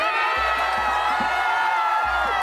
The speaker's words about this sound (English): Giant crowd in the streets, many not wearing masks.